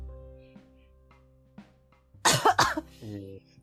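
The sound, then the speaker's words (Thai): Two harsh, loud coughs in quick succession from someone with a cold, each a rough noisy burst. A short voiced sound follows them, and a few faint small noises come before them. “ทำไมทำไมถึงไอ่ะครับ”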